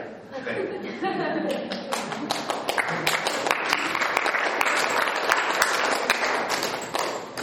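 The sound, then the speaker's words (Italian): Audience applause at an author's talk about mountain climbing: dense, steady clapping from many hands that holds for several seconds and then thins out at the end. “Ha visto? I primi applausi meritatissimi le sono arrivati.”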